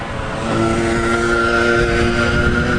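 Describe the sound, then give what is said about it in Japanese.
By a river, a motorized side-stance board on wheels hums past with a steady, fairly loud motor drone and a clear tonal whine held evenly throughout. “何あれ変なのが走ってたぞ今ね、横乗りボードにタイヤがついててモーターでそれ走るの。”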